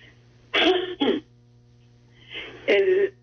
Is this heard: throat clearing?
yes